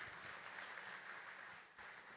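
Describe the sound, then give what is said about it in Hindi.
Audience clapping in honour of a team manager, a dense, even patter of many hands that holds steady and fairly faint for about two seconds. “तो निर्जय बहन के लिए भी हम बहुत जोरदार ताली।”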